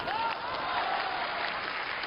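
Audience applause at a stage comedy performance: dense, steady clapping at moderate volume, holding evenly for the whole short stretch.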